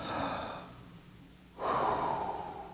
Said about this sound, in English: Somebody take a deep breath.